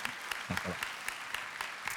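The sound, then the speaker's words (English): A church audience applauding the team: soft, steady clapping from many people, with scattered sharper claps popping out of the even background. “One more round of applause for the team.”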